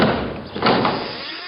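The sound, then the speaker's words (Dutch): A door being opened: a short spell of broad, rattling noise that swells slightly midway and then eases off toward the end, with no voices over it. “Maar ik zal open doen.”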